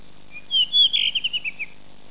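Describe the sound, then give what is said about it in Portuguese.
A rufous-tailed rock thrush sings in the valleys of the Serra Nevada: one short, high strophe that opens with a couple of clear whistled notes and then breaks into a quick run of brief chirps that fade out. “As estrofes do Melro das Rochas são curtas, a ave é poupada e comedida no seu canto, como se os sons fossem preciosos. Fica a escutar o seu ressoar nos vales da Serra Nevada.”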